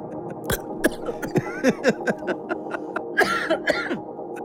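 Coughing after inhaling a drink, many sharp, spluttering coughs coming in a rapid, irregular fit, loud and alone.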